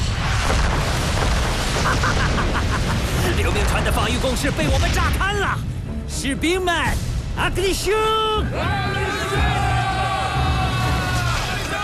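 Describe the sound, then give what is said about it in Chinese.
Cannon fire comes from a ship's deck: heavy booming blasts and a dense rumble sound while several voices shout over the din. “去甲板上，准备开炮。”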